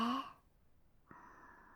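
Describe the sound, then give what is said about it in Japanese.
A slow breath during a guided breathing exercise: a brief voice, a quiet pause, then a soft, steady airy exhale that continues to the end. “もう一回、吸って、吐いて、”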